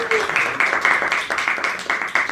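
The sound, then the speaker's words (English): Audience applause for a guest, a brisk patter of claps running evenly throughout at moderate strength, with a pulsing rhythm from hands striking together. “Please give a big round of applause to Kate for being the guest on the show today.”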